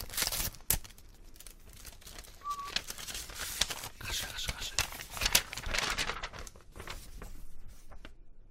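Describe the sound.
Sealed paper envelopes are torn open with many brief, faint crinkling and ripping bursts, while voices talk over them.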